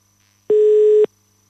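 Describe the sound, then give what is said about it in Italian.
Telephone ringback tone while a call to Milan connects: a single steady, even-pitched tone lasting about half a second, standing alone between stretches of quiet. “Andiamo velocemente in quel di Milano, che squilli il telefono”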